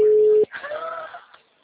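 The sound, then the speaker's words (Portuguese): A steady single telephone tone heard while placing a call lasts about half a second, then cuts off abruptly. A voice follows and speaks over faint line noise. “Tô ligando pra ele.”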